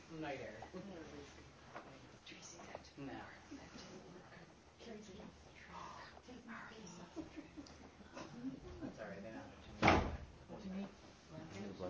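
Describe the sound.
A door opens during a restorative yoga session, with one sharp, fairly loud knock-like clunk near the end. Quiet, continuous murmuring voices and low rustling run throughout.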